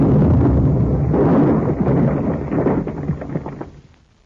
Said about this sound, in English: You wiped them out with a hand grenade.